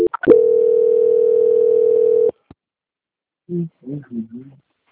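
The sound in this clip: A steady, single-pitched telephone tone sounds while a call is transferred, holding for about two seconds before cutting off abruptly. After a short pause, a voice briefly speaks.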